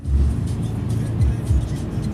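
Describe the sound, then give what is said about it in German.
A small bus drives through the city of Lomé, Togo, its engine giving a steady low rumble with slight swells. There is no other clear sound. “In einem kleinen Bus fahren wir durch Lomé.”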